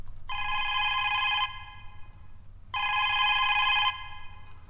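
A telephone rings in two long bursts of a bright, steady, trilling tone with a pause between them, over a faint low hum.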